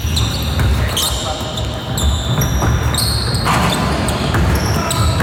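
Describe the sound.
Basketball shoes squeaking on a court in a sports arena, many sharp high-pitched squeals overlapping one another, with dull ball bounces and a constant loud background of arena noise.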